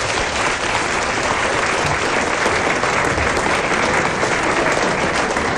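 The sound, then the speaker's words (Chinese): Audience applause at a live stage show: dense, loud clapping from a crowd holds at an even level throughout, with no single voice standing out. “大家给点掌声。”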